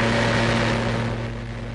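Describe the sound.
The engine of a diesel car on a speed record run at over 500 km/h, a loud, steady roar that holds without a break.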